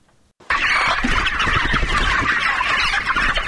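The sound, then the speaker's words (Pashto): Chickens clucking at a poultry farm in the Bidak area of Tarinkot: a dense, loud chorus of many birds clucking at once. It starts abruptly after a brief near-silence and then holds steady. “دا د ترینکوټ ښار اړوند د بیداک په سیمه کې د نعمت الله حکیار د چرګانو فارم دی”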